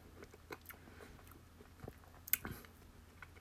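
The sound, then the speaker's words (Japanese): Quiet chewing and crunching as someone eats ice cream mixed with Baby Star crunchy snack noodles, with a few soft, irregular bites and one sharper crunch standing out. “ちょっと食べてみたいと思います”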